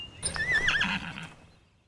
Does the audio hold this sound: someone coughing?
no